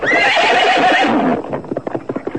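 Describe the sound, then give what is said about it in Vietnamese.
A horse gives a long, loud whinny with a wavering pitch, then it cuts off into a quick run of many hoofbeats as the horse gallops away. “Con ngựa hí một tiếng dài, phi như bay.”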